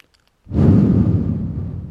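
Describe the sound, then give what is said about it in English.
A deep breath, heard as a loud breathy rush close to the microphone. It begins abruptly after half a second of silence and holds steady, easing slightly toward the end. “let's take a deep breath.”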